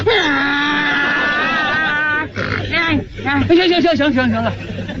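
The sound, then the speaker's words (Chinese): A man's voice imitates a donkey braying: a long, strained nasal tone is held, then breaks into rapid wavering hee-haw pulses that rise and fall, loud and alone. “到现在我连驴叫我都能学。你要不信我给你学学。”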